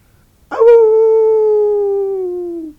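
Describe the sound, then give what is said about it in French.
One long, loud dog howl starts sharply and holds for about two seconds on a steady, slightly falling pitch before fading out, with no other sounds around it. “Le chien hurla de nouveau.”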